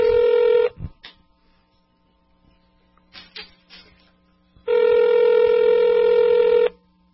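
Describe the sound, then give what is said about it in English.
Telephone keypad tones as a number is dialed: a long steady tone, a cluster of short beeps, then another long tone lasting about two seconds. “Oops, did I dial the wrong number? Let's try his home number.”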